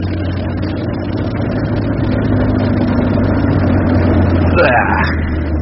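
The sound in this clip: A car drives along quiet residential streets past midnight, its engine giving a steady low hum and a smooth, even rolling noise with no sharp breaks.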